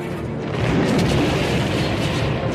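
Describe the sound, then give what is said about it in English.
A laser blast explosion setting off an ice cave-in during a science-fiction battle: a loud, heavy rumbling roar that swells just after the start and stays thick and continuous to the end. “Another blast starts an ice cave-in and all but buries the frightened C-3PO.”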